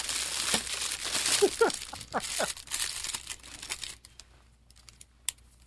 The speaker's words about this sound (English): Let's see what we got in that package. Sure thing. Maybe. Might have to cut it open.